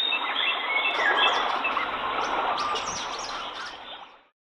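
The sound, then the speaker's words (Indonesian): Birds chirp and twitter in a lively chorus of many high, quick calls over a steady hiss, before the sound cuts out at the end. “kalian bisa menirukan suara burung berkicau”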